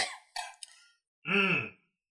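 Someone clears their throat with one short, rough, voiced rasp, preceded by a few brief breathy noises.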